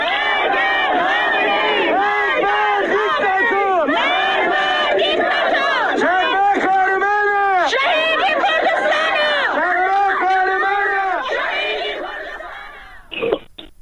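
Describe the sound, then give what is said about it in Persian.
A crowd of protesters at a graveside chants loudly and rhythmically in unison, with repeated rising and falling cries that fade away near the end. “صدای معترضان رو بشنویم بر سر مزار شادمان احمدی.”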